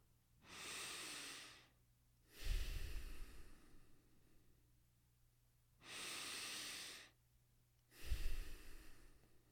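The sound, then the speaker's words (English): Two slow, deep human breaths, each a long airy inhale followed by a fuller, breathy exhale, steady and unhurried with quiet pauses between, and no talking. “Let's start with two deep breaths.”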